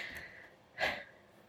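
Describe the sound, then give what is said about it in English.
A single deep breath: one short, breathy rush of air that stands out clearly against a quiet background, with no talking. “I hope y'all heard that deep breath I took.”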